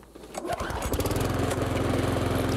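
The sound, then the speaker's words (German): A lawn mower engine, the noisiest of three models being compared in a garden, rises into a loud, steady rattling drone with a pulsing rhythm and no voices over it. “Beim Nachbarn, wenn du rasenmähst, ist es laut. Und ich glaube mal, der ist von unseren drei Modellen der geräuschintensivste.”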